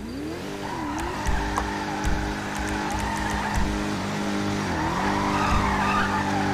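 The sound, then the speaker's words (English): Tires squeal as a Dodge Charger drifts in a video game. A sustained, wavering screech rides over a steady droning engine tone for the whole stretch. “whoever's drifting in this charger in front of me”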